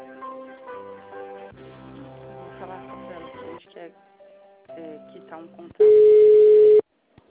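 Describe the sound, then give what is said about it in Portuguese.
Telephone call-transfer tones on a bank's credit line: a few seconds of melodic electronic hold tones, then one loud, steady, mid-pitched beep lasting about a second before the line goes quiet. “Aguarde, estou transferindo sua ligação para o assistente.”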